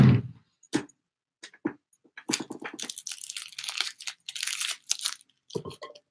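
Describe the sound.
Tape being pulled off a roll while taping boxes, a few scattered rips and crinkles followed by a longer run of harsh, loud ripping bursts with short gaps between them.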